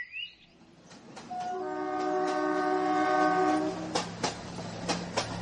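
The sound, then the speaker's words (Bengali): A local commuter train running, its horn sounding a long, steady, chord-like tone for a few seconds over the rhythmic clicking of wheels on the rails. “Bardhaman local ধরে ব্যান্ডেল”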